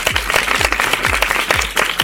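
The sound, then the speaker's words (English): Applause on a radio show, bright crackling clapping over a regular low thumping beat that pulses about twice per second and keeps an even, fairly loud level. “if you did the actions at home, give yourselves a great big round of applause”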